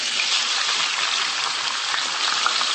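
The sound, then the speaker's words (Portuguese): Onion and bell pepper sizzling as they fry in olive oil, giving a steady, bright hiss that runs unbroken through the short stretch with no talk. “Metendo 1 xícara de azeite. Deixamos o óleo aquecer um pouco. O óleo não, azeite. Agora vamos pôr a cebola e o pimento.”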